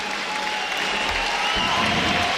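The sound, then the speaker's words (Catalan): A crowd applauds a rival player, a three-time European champion, at a match. The clapping is sustained and even, keeping a dense, steady roar for the whole stretch. “Aquests aplaudiments són per a el tres vegades campió d'Europa de Mopa, Kevin.”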